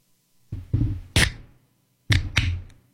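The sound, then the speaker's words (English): A can of energy drink being opened: a few sharp, knocking clicks and taps in two short clusters, the third snapping crisply with a bright, ringing edge, all heard alone without talk. “I'm going to open an energy drink and it's better. You ready? Yep. Here you go.”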